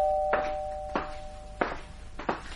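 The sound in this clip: A doorbell is rung again and again in quick succession: four sharp, evenly spaced strikes, each with a clear ringing tone, loud and with no voices.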